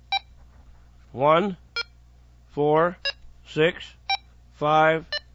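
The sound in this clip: Short, high beeps sound from a ham radio's 16-digit keypad as a frequency is entered, five clear tones with a voice speaking in between.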